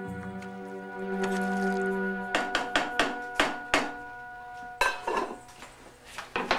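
A wooden spoon taps the side of a saucepan after rice is fluffed, then dinner plates come out of a kitchen cupboard: a run of sharp, bright knocks followed by a looser burst of clattering crockery.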